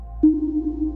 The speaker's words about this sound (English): We're all familiar with the sonar pings that you hear in submarine movies, and what we're now getting are pongs, which are similar sounds but much lower frequency.